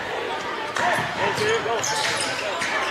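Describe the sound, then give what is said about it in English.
A basketball is dribbled behind the back during a game. The quick bounces sit under a constant crowd roar, and a voice talks over them. “McMillan behind the back dribble.”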